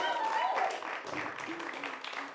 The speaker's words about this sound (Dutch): Dankjewel, mag ik nog een grote applaus.